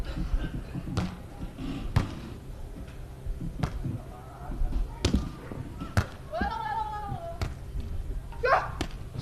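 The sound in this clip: A volleyball is bounced and served during a district team match, with several sharp thuds spaced about a second or so apart over a low background murmur and a couple of brief shouted voices.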